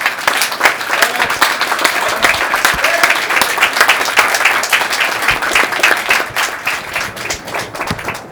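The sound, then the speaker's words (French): Sustained audience applause at an open-mic event, dense and steady for over eight seconds, with many overlapping claps at an even loudness and no single voice standing out. “Je voudrais vous demander de les applaudir parce que ça n'a pas été facile.”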